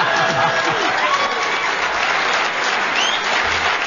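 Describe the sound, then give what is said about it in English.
A studio audience applauds on a radio panel game: a steady, even roar of clapping that lasts about four seconds, with faint voices mixed in near the start. “Well... deserved round of applause”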